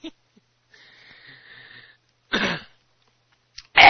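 Throat clearing and coughing: a thin, wheezy rasp comes first, then two harsh, loud bursts of hacking cough, each short and separated by silence, with no talking.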